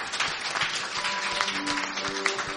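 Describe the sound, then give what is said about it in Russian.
An audience at a church healing service claps for Jesus, producing dense, continuous applause with many overlapping hand claps at an even loudness throughout. “Lass mal für Jesus klatschen. Давайте Иисуса похлопаем.”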